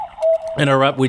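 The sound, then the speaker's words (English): An owl sound effect marks the start of a segment: a brief thin tone, then a couple of loud, rounded hooting calls in quick succession. “the untranslatable owl, signifying mm-hmm. time for some untranslatables.”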